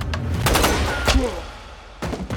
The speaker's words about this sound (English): Overtaken by fear, the head teller instinctively turns his back to Makeley to run, but Makeley shoots the man.